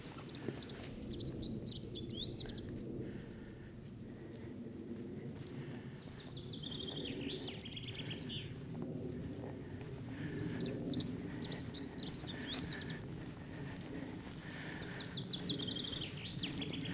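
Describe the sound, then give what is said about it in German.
Small birds chirp outdoors in several bursts of high, quick twittering that come and go over a steady low rumble, all fairly faint with no voices. “Aber die Natur erwacht. Man hört überall schön die Vöglein zwitschern.”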